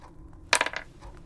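Dice rattle and clatter in a luck roll for a tabletop roleplaying game, a brief cluster of quick hard hits that fades fast.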